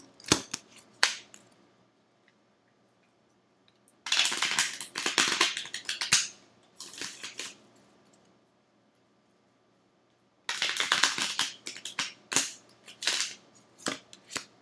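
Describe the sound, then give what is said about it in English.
A tarot card deck is taken out and handled, making bursts of crisp, rapid clicking and riffling separated by short quiet pauses, with no talk. “All right, so let's take a look at our card of the week. Let me get my deck out here.”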